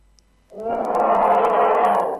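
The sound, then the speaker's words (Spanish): A bear's growl plays from a recording as one sustained, deep rumbling roar that starts after a brief silence and holds at a steady, fairly loud level until the end. “Nunca había escuchado un oso. ¡Ay, qué lindo! Estamos descubriendo el sonido del oso.”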